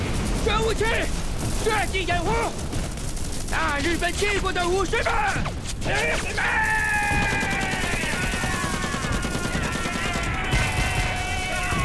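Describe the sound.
Gunfire and blasts from a radio drama battle scene, where cannon fire is part of the fighting: dense, continuous firing and bursts run the whole way through, under shouting voices and battle cries.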